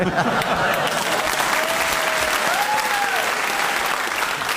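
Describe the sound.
Applause from an audience, dense and sustained at an even loudness for the whole stretch, with no pause or clear voices.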